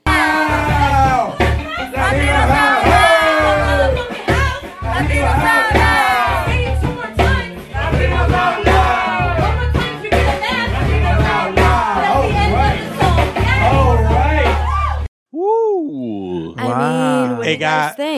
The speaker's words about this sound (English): we have audio of what we did with the audience that night